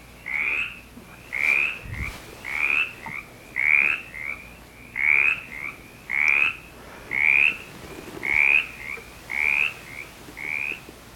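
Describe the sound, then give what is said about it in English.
A mountain chorus frog gives a regular series of short, raspy trilled calls, roughly one per second, each a quick rising burst repeated at a steady, unhurried pace. “which we'll hear in just a second. Okay, so mountain chorus frog.”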